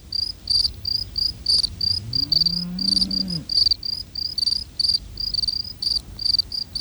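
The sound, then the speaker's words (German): Field crickets chirp in the warm midday sun, while another in the shade sings more slowly. Loud, high, regular chirp trains overlap continuously in steady rhythms, with no voices. “Die eine Feldgrille singt langsamer als die beiden anderen. Ihr Singplatz liegt im Schatten, während die anderen Grillen im warmen Mittagssonnenlicht sitzen.”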